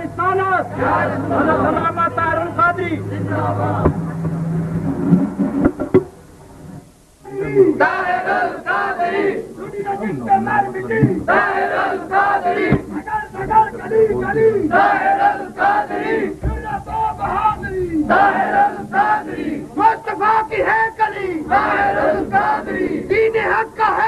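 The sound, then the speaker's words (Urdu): A crowd in a mosque chants religious slogans in place of clapping, many voices joined in loud rhythmic unison, with a short pause partway through before the chanting resumes. “تالی نہیں چونکہ مسجد ہے، آستانہ عالیہ ہے، نعرے لگا کر”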